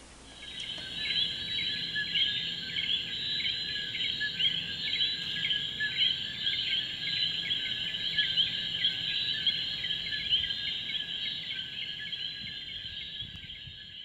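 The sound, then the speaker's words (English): Coqui frogs sing in a night chorus, a dense, continuous layer of high, overlapping chirping calls that stays steady and moderately loud for the whole stretch. “especially being sung to sleep every night by the coquis, the little tiny frogs, which was a real joy. The coqui choir sounds like this.”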